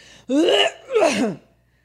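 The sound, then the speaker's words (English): A voice imitates a loud, obnoxious throat clearing done in public: two rasping, voiced bursts in quick succession, followed by quiet. “He used to clear his throat too much in public. He would be like,”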